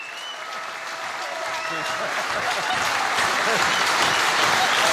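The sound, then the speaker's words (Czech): Applause from a group of boys seated behind a woman, building gradually louder across five seconds, with voices faintly audible over the clapping. “teď jste to musela slyšet, že chlapci vám tleskali”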